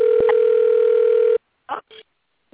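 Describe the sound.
A telephone dial tone on a direct line: a steady, loud, even hum that holds for over a second, then cuts off abruptly and is followed by a few short, faint sounds.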